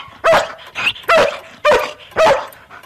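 Dog barking repeatedly with no apparent trigger: four loud, sharp barks in a steady rhythm, with short gaps between them and a weaker yelp after the first. No voices are present.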